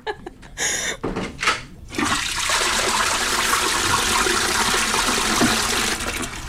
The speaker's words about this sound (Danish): Må man have lov til at spørge, om det var lille skyld eller stor skyld? Jeg bruger altid det store skyld.